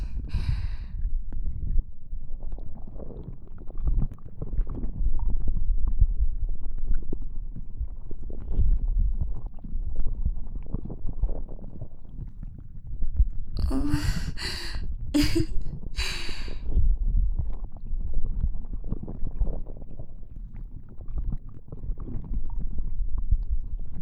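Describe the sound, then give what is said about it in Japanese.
Wet, churning squelches of tentacles wrapping around a penis form a continuous low, rumbling texture, with a brief cluster of sharper bursts partway through. “自分のおちんぽが私の触手に包まれている音。”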